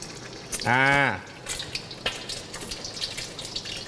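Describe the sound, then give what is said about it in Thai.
Egg poured into hot frying oil in a pan to make a fried egg, setting off a steady crackling, spattering sizzle. A short voice sounds near the start. “ไข่ที่ครูมอสเตรียมไว้แล้วนะครับเทลงไปเลยครับน้ำมันเราตอนนี้น้ำมันเราร้อนแล้ว”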